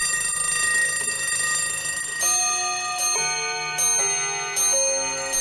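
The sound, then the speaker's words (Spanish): Several clocks and alarm bells ringing together in a rock album track: bright, sustained metallic bell tones, with new rings joining at staggered intervals of about a second. No voices. “Tengo también este reloj.”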